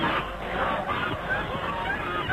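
A flock of white geese honking on a narrow country path, a dense, steady babble of overlapping nasal calls running throughout at a moderate level.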